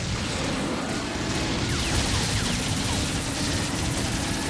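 Missiles and gunfire hitting the player in a video game, a loud, continuous barrage of rapid shots and blasts with no pauses.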